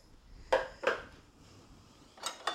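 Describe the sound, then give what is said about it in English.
Faint scraping and clinking as a 1/4 cup measure scoops packed brown sugar into a large bowl while making chocolate chip cookie dough, a few short, soft knocks separated by quiet pauses. “and then 3/4 cup of packed brown sugar. And I'm using 1/4 cup measure, and I'm scooping it 3 times.”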